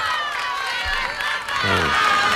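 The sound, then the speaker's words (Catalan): Crowd gathered outside Spain's Congress of Deputies cheers and applauds, a steady roar of clapping and shouting that swells slightly toward the end. “I aplaudiments de la gent que hi ha just davant del Congrés dels Diputats.”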